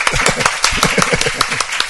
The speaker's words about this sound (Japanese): 新しい神の家族がオンラインで増えましたので、ここから拍手を届けたいと思います